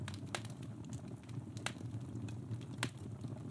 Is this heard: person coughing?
no

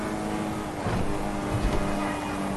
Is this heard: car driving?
yes

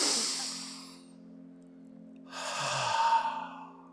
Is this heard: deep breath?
yes

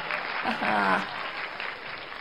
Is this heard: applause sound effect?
yes

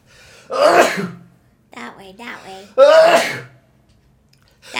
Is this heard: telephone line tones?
no

